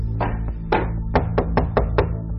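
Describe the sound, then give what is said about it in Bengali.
Knocking on a door: a series of sharp, hollow raps with uneven spacing, fairly loud against a low background hum. “দরজায় টোকা পড়ল”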